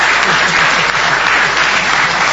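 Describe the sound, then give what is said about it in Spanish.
An audience applauds at a live Spanish-language show after people are asked to stand up. The dense, steady clapping stays loud and even throughout, with no pauses and no voices above it. “Vamos a aplaudirlos.”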